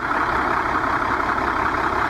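Engine of a long-distance passenger bus running smoothly, a dense, continuous hum and rumble that holds steady without breaks or changes in pitch.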